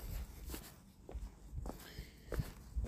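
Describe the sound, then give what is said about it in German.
Slow, relaxed footsteps of someone walking back to a youth hostel in Lindau on Lake Constance: faint, soft steps at an unhurried, steady pace over low background noise, with no talking. “Nur gehe ich jetzt halt ganz langsam, ganz entspannten Gang, zurück zur Jugendherberge.”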